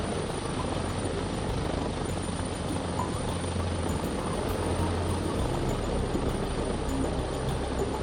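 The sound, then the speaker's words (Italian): A Guardia di Finanza air rescue helicopter flies during a training exercise with rescue technicians, doctors and pilots aboard. Its steady, loud rotor and engine roar holds constant throughout, with a dense low throb and no voices. “Tecnici di elisoccorso, medici e militari della Guardia di Finanza si esercitano in volo con l'aiuto dei piloti, pronti a raggiungere il paziente direttamente in telecabina.”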